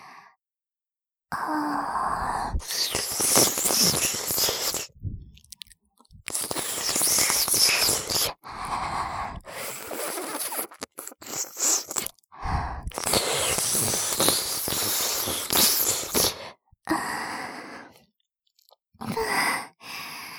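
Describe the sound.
ASMR ear-cleaning and ear-eating mouth sounds: wet licking, smacking and breathy sighs come in long soft bursts separated by brief silences.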